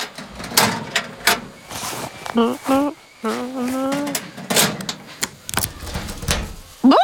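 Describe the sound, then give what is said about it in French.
A small locker at a child's swimming lesson is shut and locked with a key, giving a series of short knocks and metallic clicks while an adult voice speaks. “Et maintenant, mon doudou, il faut mettre tes affaires dans un petit casier que l'on va fermer à clé.”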